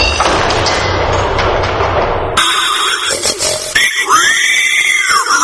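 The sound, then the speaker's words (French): Wild boar grunts and squeals, loud, following a burst of dense rushing noise; the later calls carry a harmonic squeal that arcs up and back down. “Roi, tu m'as demandé de te rapporter le sanglier d'Érimante vivant.”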